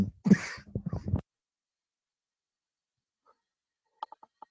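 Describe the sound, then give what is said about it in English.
A person coughs in a short burst of harsh coughs, then silence follows with a few faint clicks near the end. “are you okay? I'm gonna edit that out. Cough that demon out.”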